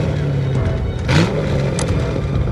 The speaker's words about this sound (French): Je vais freiner.